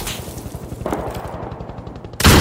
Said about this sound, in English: A quick flash of light erupts among the trash. The sniper's shot hits the dirt near Isaac.